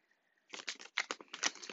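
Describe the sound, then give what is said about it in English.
Tarot cards being shuffled, a quiet run of quick papery riffling bursts that starts abruptly after a near-silent opening and continues in short, uneven clusters to the end. “I cannot guarantee that you will hear me shuffling the whole duration of this reading”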